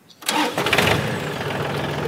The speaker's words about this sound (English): And that's an indication that the tractor is unlocked right now.